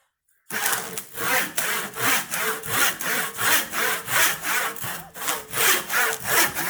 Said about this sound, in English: Still cuts good. My old crosscut saw. This is a real crosscut saw.